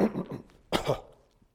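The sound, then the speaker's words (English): Throat clearing by a preacher just before a sermon: one short, rough, forceful burst, preceded by softer throaty rumbling and followed by quiet. “Always get a frog in my throat right before a sermon.”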